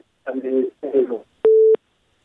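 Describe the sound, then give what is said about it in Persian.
A single steady beep of a telephone busy tone, heard after a caller's line is cut off, follows about a second of muffled voices. “خب تماس شنونده ما قطع شد، تماس دیگه را میگیریم.”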